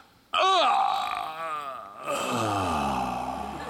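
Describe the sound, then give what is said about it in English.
A voice imitates the 'recovery groan' from a Batman video game, the noise a downed enemy makes to show he is still alive. It is a loud, drawn-out, wavering groan lasting over three seconds, its pitch sliding and dipping as it strains. “So the way they do that is they have what's called a recovery groan.”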